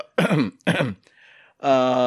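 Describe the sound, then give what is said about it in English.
Someone clears their throat in two rough, voiced bursts. A brief breathy hiss follows, then a sustained voiced sound. “Hold on, I gotta clear my throat now.”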